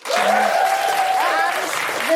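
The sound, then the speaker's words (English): Audience applause at a theatre show, loud, dense clapping from start to end with some vocal sound faintly over it. “A huge round of applause for all of this incredible staff who's doing this round-the-clock stuff here for Shedinburgh at Soho Theatre.”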